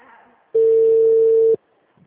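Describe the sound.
A single steady call tone lasting about one second sounds loud and clear while a voicemail line is dialed, with faint speech just before and after it.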